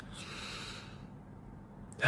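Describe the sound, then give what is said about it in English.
A deep breath: a long, soft, airy rush of breath that fades into near silence, then a sudden, sharper breath sound at the very end. “Deep breathe. Try. One more.”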